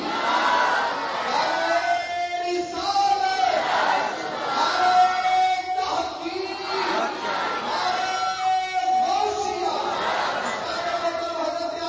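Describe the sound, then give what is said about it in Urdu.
A crowd chants the takbir slogan in unison in response to a call, loud massed voices rising and falling in repeated waves of chanting. “تو پہلے میرے نال مل کے انہاں دا استغفار نعرے دی صورت کرو. نعرہ تکبیر”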